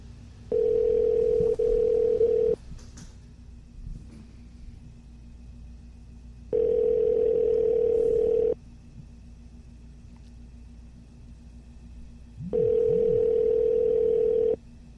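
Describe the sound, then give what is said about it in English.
Telephone ringback tone heard while placing a call: three steady, mid-pitched buzzing rings, each about two seconds long, separated by longer pauses of silence. “Let's call him up. Hopefully he's able to pick up.”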